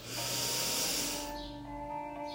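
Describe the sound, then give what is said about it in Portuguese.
Breath goes out through the nostrils during a guided meditation. A soft, airy hiss lasts about a second and a half and then fades, over quiet, steady sustained musical tones. “Inspira bem forte, enche o pulmão de ar, expira pelas narinas. Inspira o ar pelas narinas.”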